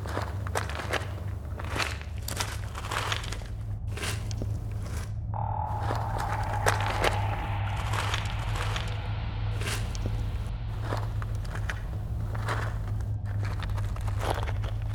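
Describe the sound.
Footsteps climb stairs to a second floor of a dark building during a search, many steady footfalls, some crunching, over a constant low hum.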